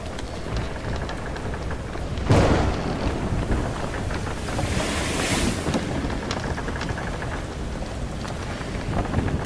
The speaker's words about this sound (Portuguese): Vocês estão no convés. Vocês. Está uma tempestade danada.